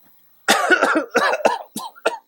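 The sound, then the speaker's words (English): A man coughing and choking: a rapid fit of about six harsh, rasping bursts with brief gaps between them, loud and alone. “Wow, he's choked up about it. He can't breathe.”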